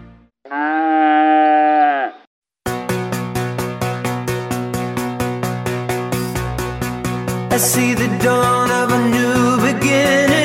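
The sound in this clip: A single long, harmonic cow moo sounds first, loud and steady. After a brief gap, a steady, evenly pulsing rhythmic sound follows and runs to the end.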